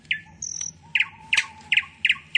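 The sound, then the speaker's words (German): Nightingales sing in bushes on a lakeshore as the moon rises, giving bright, repeated chirps in a steady rhythm with one longer whistled note early on. “Dann geht der Mond auf, die Nachtigallen singen in den Büschen am Seeufer.”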